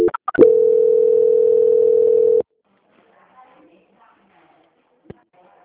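Telephone call transfer tone: a few short clicks, then one steady, loud, mid-pitched tone holding for about two seconds before it cuts off abruptly into near silence.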